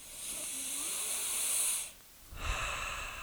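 A deep, hissing breath is drawn in and held for nearly two seconds, then after a brief pause comes a second, shorter sniff, with no talking.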